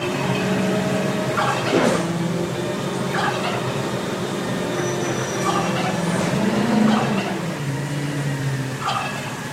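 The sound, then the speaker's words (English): Several loud, warbling gobbles from a giant tom turkey on garbage day in West Seattle. The bursts come in a few clusters over a steady background rumble that is consistent with the arriving garbage and recycling trucks. “Every garbage day, her neighbor's giant Tom Turkey alerts her to the arrival of the garbage and recycling trucks.”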